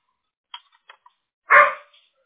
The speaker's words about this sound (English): Sorry about my dog. I have a 2-year-old all puppy. And I mean all puppy.